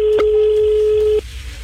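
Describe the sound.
A telephone call tone while dialing: one steady low-pitched beep held for just over a second, then cut off, leaving faint background noise.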